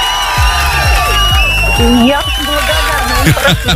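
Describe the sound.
A cheering and applause sound effect plays on a radio show: a loud crowd roars with whoops and shouts, and a voice talks over it throughout.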